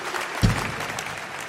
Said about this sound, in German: Wir haben natürlich mit diesem Applaus gerechnet